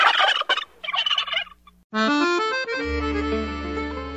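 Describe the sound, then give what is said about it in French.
A person imitates a turkey gobbling with a rapid, warbling burst of gobbles lasting under two seconds. A brief pause follows, then a short musical jingle with stepped notes. “please refrain from any gobbling.”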